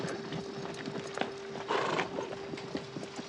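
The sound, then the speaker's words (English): Hooves clop steadily and somewhat irregularly as a horse is ridden while leading a second horse, over a low steady hum and background noise. “Dylan rides back to camp. He leads Rusty's horse with his lifeless body over the saddle.”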